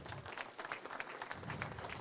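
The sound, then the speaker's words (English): An audience applauds a guest at a live event. The clapping is soft and continuous, a steady wash of many hands at an even level. “Give Ed a round of applause,”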